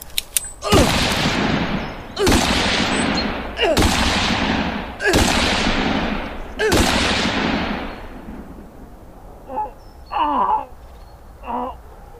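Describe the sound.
Gunshots ring out at a deer camp, apparently from a concealed-carry handgun: five loud, sharp blasts spaced evenly, each with a long decaying tail. Afterward come a few shorter, quieter vocal sounds.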